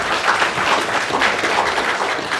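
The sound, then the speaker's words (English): A round of applause from a church audience for a group of people, heard as an even, continuous wash of clapping with no break. “Big round of applause for these guys. Thank you for coming.”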